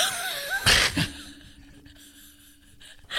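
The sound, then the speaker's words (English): A person takes a sharp, sudden gasp of breath while nearly choking. It is a brief, loud rush of air, followed by quieter, strained breathy sounds. “I just took a really sharp breath there. I was going to choke.”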